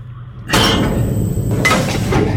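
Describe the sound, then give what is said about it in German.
An airlock opening aboard a spacecraft: a sudden loud hissing rush with a thin high whine, then a second surge of hiss as the release continues. “Ja, dann öffne ich jetzt die Schleuse, ja?”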